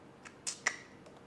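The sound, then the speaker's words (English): Keyboard keys click as someone types a place name into a geography guessing game: a few faint, scattered taps, two of them sharper and louder, with quiet pauses in between. “Alright, I'm gonna type it in now.”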